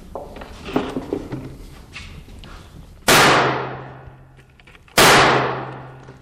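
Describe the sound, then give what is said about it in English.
A revolver is loaded and fired in a forensic firearms test lab: a few light clicks and rattles come first, then two sharp, loud gunshots about two seconds apart, each trailing off in a long, fading tail. “He tells me to hold the revolver like I'm shaking hands with it. We're going to go ahead and load it up, and we'll let you shoot a few.”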